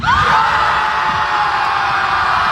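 Around 300 fans scream beside a lake, a dense, continuous wall of high-pitched shrieks and yells that stays loud and steady throughout.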